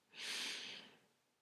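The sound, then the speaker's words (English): One deep inhaling breath during a guided breathing exercise: a steady, airy rush that swells quickly, holds, then tapers off, heard alone. “Let's take one deep breath to clear our space. Inhale.”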